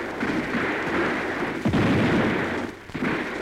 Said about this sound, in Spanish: ¡Comiencen a disparar!